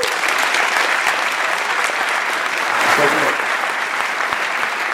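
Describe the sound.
Loud, steady applause welcomes Steve Case, AOL founder, at a Stanford Entrepreneurship Week event. The dense clapping holds evenly through the whole five seconds, with no talk over it.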